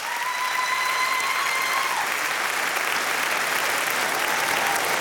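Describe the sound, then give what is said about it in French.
An audience in Studio 104 at France Inter gives an orchestra a live ovation after its performance, with thick, sustained applause that holds at an even, loud level throughout. “Une ovation ici en direct du studio 104 sur France Inter.”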